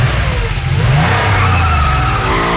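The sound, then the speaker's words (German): A car engine revs and accelerates as the car pulls away for a quick test drive: a loud, continuous mid-pitched roar whose pitch climbs as it gains speed, with no voices. “Okay, pass auf, dann werde ich mal schnell testen fahren.”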